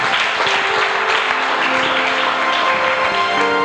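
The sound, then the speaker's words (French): An audience applauding and acclaiming God during a French-language church service: dense, steady clapping throughout, with sustained musical tones running beneath it. “Est-ce que tu peux acclamer Dieu pour sa vie”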